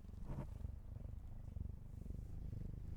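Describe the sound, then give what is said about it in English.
A cat purring, faint and low, with a steady rhythmic rumble that pulses continuously throughout, alone with no voices over it. “That was my cat purring.”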